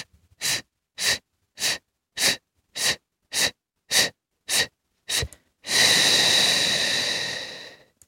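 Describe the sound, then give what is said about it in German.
A diaphragm breathing exercise starts with nine short, sharp breath bursts at an even pace. One long, loud, airy exhale then runs for about two seconds. “Ich mache es nochmal vor: Einatmen, kurz halten und dann kurze oder lange auch.”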